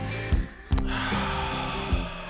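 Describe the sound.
Snorting, congested breaths drawn through mucus: a few sharp sniffing snorts punctuate a continuous rough, wet breathing noise.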